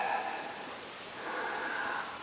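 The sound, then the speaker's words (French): A long, steady exhalation blown out for about two seconds, a soft, even, breathy hiss with no voice. “Jésus souffle sur tous et dit recevez”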